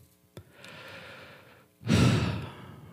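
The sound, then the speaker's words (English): A deep human breath: a soft, airy inhale is followed by a louder, longer exhale that sounds like a full sigh, heard alone with no talk. “But take a deep breath with me.”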